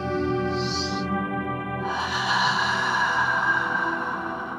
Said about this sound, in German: Tief einatmen.